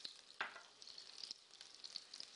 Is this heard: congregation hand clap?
no